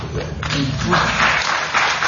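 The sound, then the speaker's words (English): Audience applause breaks out at a political discussion about term limits, a dense, steady patter of clapping lasting throughout, with some voices mixed into the crowd noise. “You're getting applause for term limits”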